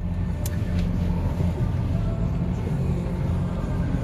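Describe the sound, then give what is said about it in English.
A car is driven with a low, steady interior rumble of engine and road noise that stays even and unbroken throughout, with no clear music or talk rising above it. “I'm driving and you're in the car with me”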